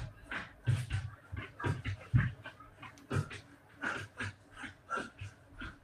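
A dog panting heavily, with many quick, rhythmic, breathy puffs in a steady loud run and no talk over them.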